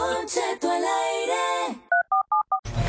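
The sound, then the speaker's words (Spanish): Touch-tone telephone number being dialed: four short, clear keypad beeps in quick, even succession, followed by a burst of noise. “Déjame hacer una llamada ahorita.”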